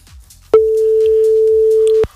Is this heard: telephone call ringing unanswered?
yes